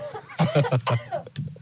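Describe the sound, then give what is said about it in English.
A rapid series of short, husky coughs is aimed right into a studio microphone, each burst close and punchy, with a slight chuckle mixed in. “I'm going to cough right into the microphone.”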